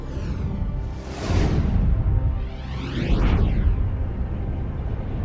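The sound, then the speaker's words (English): A magical portal opens with two swelling whooshing surges over a deep rumble, each sweeping up and down in a phasing shimmer before settling into a sustained roar. “Open the portal.”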